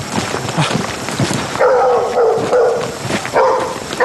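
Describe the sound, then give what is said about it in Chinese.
A dog barks and howls, giving a few drawn-out, tonal yelping calls that stand out over a busy, noisy background. “有狗叫肯定有人”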